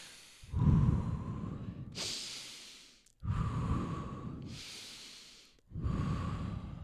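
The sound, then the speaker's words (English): Deep breaths drawn in through the nose and let out through the mouth, three long airy swells separated by hissing exhales in a slow, even rhythm, with no talk. “Three deep breaths in through your nose, out through your mouth.”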